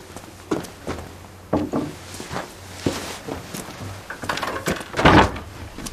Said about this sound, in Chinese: 把门关上